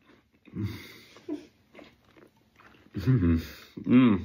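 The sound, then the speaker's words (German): Chewing and biting of oat porridge with a little apple: soft, wet mouth sounds in a few uneven bursts, followed by louder vocal sounds near the end. “Probiere ich mir hier mein tolles Haferporridge mit ein bisschen Apfel.”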